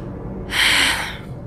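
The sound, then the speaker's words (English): A single deep inhaled breath from a young woman in the middle of a breakdown, a loud, rushing airy intake that swells and then tapers off, heard alone with no talking. “I take a deep breath.”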